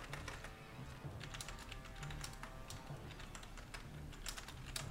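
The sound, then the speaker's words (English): Rapid typing on a computer keyboard, with many light, clicky keystrokes in a steady, uneven patter throughout and no voices. “I'm typing it to you.”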